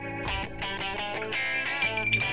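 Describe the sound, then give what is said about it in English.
A big bell rings continuously, giving a bright, dense metallic clang rich in overtones that sustains at a steady, fairly loud level throughout without pausing. “I've got the big bell.”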